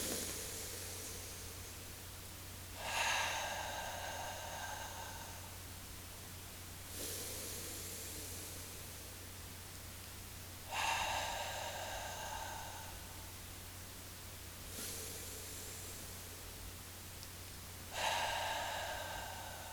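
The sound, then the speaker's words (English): Deep breaths drawn in through the nose, three slow snuffly inhales alternating with softer breathy exhales at an even, unhurried pace, faint over a steady low hum. “Let's just take a couple breaths together as that oneness. Let's make it three breaths. In through the nose.”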